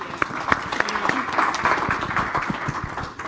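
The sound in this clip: Applause from a church audience welcoming visiting guests: dense, steady clapping that holds at an even level for the whole stretch, with no break.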